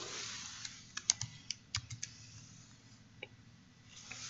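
Typing on a computer keyboard while uncommenting code: faint, sharp key clicks come in a quick irregular cluster, then a few sparse taps after a pause.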